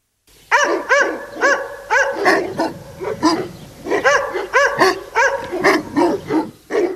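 Barking and yelping from a thin, mangy dog: a long, unbroken run of many sharp, high-pitched barks with a whining, tonal edge, loud and steady throughout with no talk.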